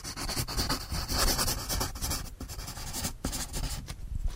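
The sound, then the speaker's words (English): A pencil drawing a picture on paper makes continuous soft scratching and rubbing strokes with a few brief pauses, faint and heard alone. “Look, I'm drawing a picture.”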